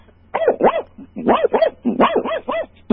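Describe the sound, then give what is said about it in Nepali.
A human voice imitates a dog, giving many short, yelping barks in three quick bursts separated by brief pauses, mid-pitched and fairly loud. “सुरुमा चाहिँ कुकुरको कराउनु पर्यो। कुकुर चाहिँ यसरी रुन्छ”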